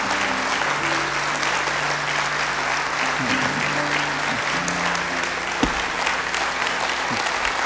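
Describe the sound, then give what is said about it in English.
Church audience applauding to welcome a family, a dense, steady clapping that runs unbroken from start to finish at an even level, with a few voices faintly mixed in. “So put your hands together and let's welcome the Knight family.”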